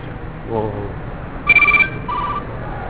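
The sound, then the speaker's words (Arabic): A telephone rings in two short electronic bursts with a steady, high tone, while people talk around it. “رد عليه تليفونك.”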